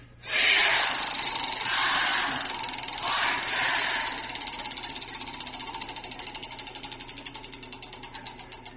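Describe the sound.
A prize wheel spinning: a loud rushing burst opens, then a long run of quick, even clicking ticks that carries on steadily to the end.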